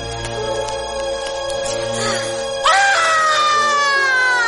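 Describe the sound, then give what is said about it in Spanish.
A young man breaks down crying after a knife attack in a drama scene. His loud, harmonic wailing sobs burst in abruptly partway through and are sustained to the end. “La mujer lo observa aterrorizada y el joven agresor rompe a llorar.”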